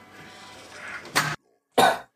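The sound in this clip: Two harsh, separate coughs from a person with a bad, persistent cough. A low, quiet murmur comes before them and there is a brief silence between the two bursts.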